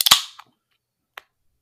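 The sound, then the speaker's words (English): A beer can snaps open in a quick burst of sharp cracks and a brief hiss at the start, followed by a couple of small, faint clicks. “It's like a shotgun. Boom. Done. Yeah, man. I tried to open it like I was a dude on the picture of the can.”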